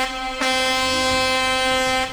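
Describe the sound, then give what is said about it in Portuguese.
Truck air horn blaring in one long, loud, unbroken blast with a rich harmonic tone, swelling a little early on and holding steady almost to the end. “bom dia motorista de aplicativo, buzina pra mim, vai.”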